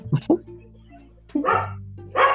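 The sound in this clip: A dog barks a few times in short, sharp yips and woofs, some in quick pairs, over a low steady hum.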